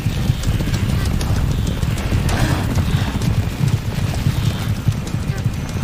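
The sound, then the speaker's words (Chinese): Dense, continuous drumming of many hooves as a wildebeest herd flees in panic from lions at night, a steady, loud, rumbling mass of trampling with no pauses throughout. “敌人的进攻立刻在角马群中引起骚动”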